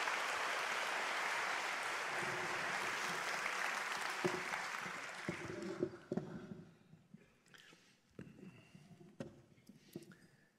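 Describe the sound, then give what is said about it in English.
Audience applause welcomes two speakers to the stage at a live event: sustained, dense clapping for about six seconds, then it dies away into scattered small sounds. “And so I want you to put your hands together and welcome Tyler and Madison Vining to the stage, if you would.”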